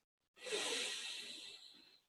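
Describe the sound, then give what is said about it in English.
A deep inhalation through the nose during a seated guided breathing exercise: one long, steady, airy hiss of breath lasting over a second, fading gently at its end. “Inhale through your nose,”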